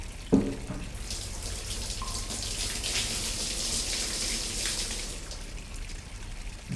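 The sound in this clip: Hot water poured over a person's body from the waist to the belly during a bathing service: a soft knock at the start, then a steady, gentle splashing stream that runs evenly throughout.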